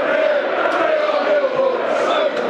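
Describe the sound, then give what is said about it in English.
Football crowd at The Den, Millwall's ground, during a match against Bolton just after a Millwall goal, a loud, steady roar with a sustained sung chant running through it for the whole clip. “1-0 Millwall. Bolton are going to have to come out of their shell now, listeners. That's got the den livened up as well. It's brought the crowd into play.”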